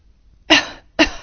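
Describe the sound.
Two sharp, harsh coughs from a person with a cold and a fever, loud and alone, the second coming quickly after the first.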